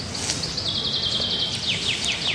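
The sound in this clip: Birds chirping with wind in a forest beside a tipi village: many high, quick chirps and rapid repeated call notes ring out over a constant, loud, rushing wind noise, with no voices.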